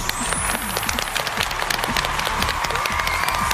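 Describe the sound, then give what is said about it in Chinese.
An audience applauds to welcome the Guangzhou Xinghu Choir, a steady, dense wash of many hands clapping that stays fairly even and moderately loud throughout. “让我们掌声欢迎广州星湖合唱团，欢迎各位。”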